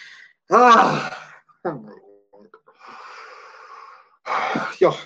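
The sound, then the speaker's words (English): Deep breathing from a person pausing mid-talk about a film: a breathy, wheezy inhale and exhale set among loud voiced bursts, with the voices continuing around it. “okay, I'm just taking a breath”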